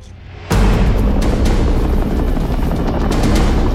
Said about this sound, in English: Heavily armored helicopters fly in formation above the city streets towards the Dread Reservation.